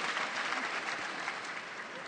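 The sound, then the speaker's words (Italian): Audience applause at a catechesis gathering on the feast of Saint Anthony of Padua: a dense, steady wash of many hands clapping that holds at an even level for about two seconds, with no clear voices above it. “Un applauso a tutti gli Antoni, eh?”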